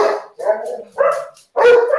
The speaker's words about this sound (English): I'm sorry about the dog barking there.